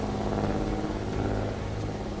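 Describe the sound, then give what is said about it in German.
A small motor-powered boat's engine drones on a river as the throttle lever is pushed well forward, giving a loud, steady, dense hum with layered harmonic tones that holds level throughout. “Ihr bemerkt, wie langsam der Seegang ein wenig unruhiger wird und wie eure Freunde den Gashebel von dem kleinen motorbetriebenen Schiffchen ein ganzes Stück nach vorn schieben.”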